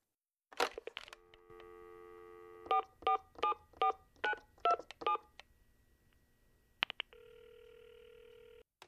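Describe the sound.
Touch-tone dialing on a telephone calling a friend from a hotel in Montreal: a click, a steady dial tone, then a quick run of short, evenly spaced keypad beeps, another click and a new steady tone.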